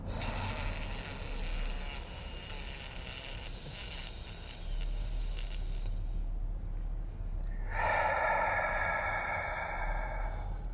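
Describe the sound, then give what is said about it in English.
A person with a congested nose draws a long, deep, rough breath, holds it in near silence for about two seconds, then lets it out in a loud, airy exhale. “breath number three. Last one, make it a good one. Deep. And hold it at the top.”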